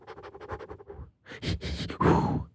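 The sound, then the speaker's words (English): A voice imitates heavy breathing, as if gasping for thin air: a quick run of short, rhythmic panting breaths, a brief pause, then louder, longer and rougher huffing breaths. “If you start breathing like this,”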